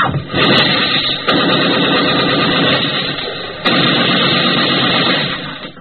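Gunfire in house-to-house street fighting in a Korean town, a loud, dense rumbling din broken by a few sharp cracks, with no talk.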